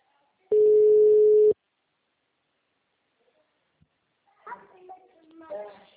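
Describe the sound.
Telephone ringback tone as a call is placed: a single steady, mid-pitched electronic tone lasting about a second, then near silence before a voice answers and speaks.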